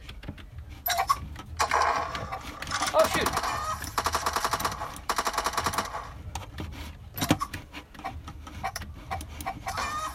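Rifle fire from a crack shot weapon in a video game: many sharp, loud cracks that come in quick clusters and scattered single shots, with dense bursts through the middle.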